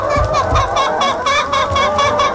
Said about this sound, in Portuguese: Essa sinfonia toda mostra que tem muitas galinhas no aviário e que são destinadas à produção de ovos.